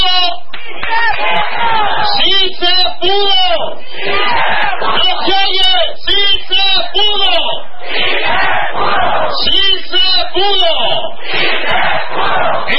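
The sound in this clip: Loud crowd of marchers at a street march of more than 100,000 people shouting a rhythmic chant in unison, with many voices and some clapping, continuing without a break.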